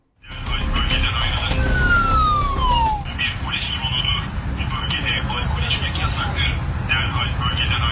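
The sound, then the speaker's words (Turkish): A warning siren from a police drone patrolling in Istanbul sweeps downward in a long falling wail, then gives way to repeating high electronic tones over loud, steady background noise, with voices running underneath. “Dronlardan uyarı sesini duyanlar şaşıp kaldı.”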